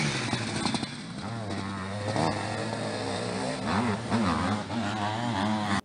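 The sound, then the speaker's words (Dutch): Sidecar motocross engines rev from a played video, a continuous buzzing motor note that wavers up and down in pitch as the throttle opens and closes. “Ja, dit is eigenlijk Zijspan op zijn best, hè? Dat is mooi. Dat is beter als in de zandbak liggen rijden achter elkaar aan.”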